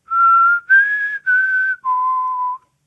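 A person whistles an imitation of the mockingjay call: four clear, sustained notes. The second is slightly higher than the first, the third dips back a little, and the fourth is the lowest and longest. Loud and alone, with no talk.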